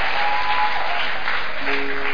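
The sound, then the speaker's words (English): A church audience claps at a baby dedication service, making dense, steady applause. The many overlapping claps stay loud and even throughout. “May men clap for you the way you are clapping now.”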